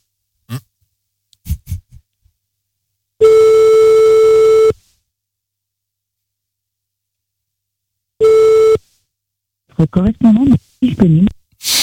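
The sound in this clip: A telephone line ringing unanswered with French ringback tones: one steady tone lasting about a second and a half, then after a long pause a second, shorter tone. Breathing noises come before the tones and a voice follows at the end.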